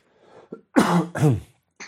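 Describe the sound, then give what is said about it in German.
A person clears their throat and then coughs, a few rough, voiced bursts separated by short gaps, loud and alone without speech. “Entschuldigung, ich war irgendwie ein bisschen hustig.”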